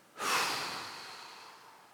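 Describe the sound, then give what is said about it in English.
A single deep human breath, a loud, airy rush that starts abruptly and fades slowly over nearly two seconds, with no talking. “If you'll take a deep breath, inhale, and exhale.”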